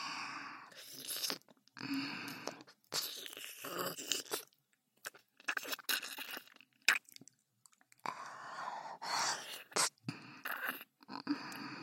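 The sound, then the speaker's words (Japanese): Licking sounds: soft, wet mouth noises in many irregular bursts with short pauses between them, faint and alone. “こうして舐めさせていただきます。”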